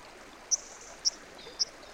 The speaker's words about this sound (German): Unter einem Korridor von Weiden, Erlen und Eschen führt der Estena in den ersten Dezembertagen mehr Wasser als sonst üblich.